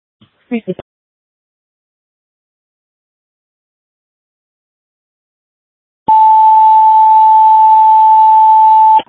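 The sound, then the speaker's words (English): A fire station house alert tone test for an engine company: after a brief burst of sound near the start and several seconds of silence, a single loud, steady, pure tone sounds for about three seconds. “If you could please activate Engine 9's house tones with a test count.”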